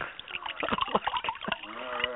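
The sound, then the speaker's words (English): Drink poured from a corked bottle into a glass, with a light splashing, sloshing trickle under people talking. “Anyway, so here, let me pour a little for myself here.”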